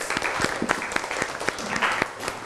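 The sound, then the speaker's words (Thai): A classroom of students claps for a classmate's good answer. The clapping is brief and uneven, with scattered, loosely timed claps from a small group at moderate volume. “เป็นคำตอบที่ดีปรบมือให้เพื่อนหน่อยครับ”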